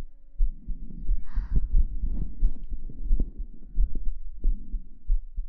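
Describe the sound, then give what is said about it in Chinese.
Slow, calm heartbeat: a run of soft, muffled low thumps pulsing steadily over a faint hum, with no talking. “心跳好平缓啊”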